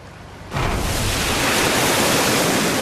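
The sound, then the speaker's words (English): Storm waves smash against black sea cliffs and throw up towering spray. The dense, loud roar swells in suddenly and holds as a continuous, unbroken wash of noise. “Waves smash against black cliffs, throwing up towering columns of spray that reach over the tops of them.”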